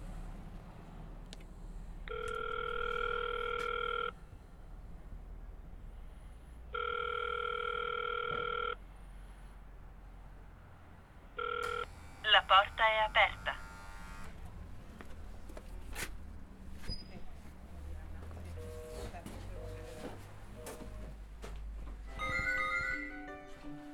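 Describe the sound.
An intercom buzzer pressed at an entrance: two long, steady electronic buzz tones with a pause between, then a short blip and a quick burst of chirping electronic beeps, followed by quieter handling noise.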